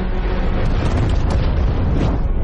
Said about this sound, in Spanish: En Calais, un avión lanza cuatro bombas sobre la fortaleza. El edificio explota.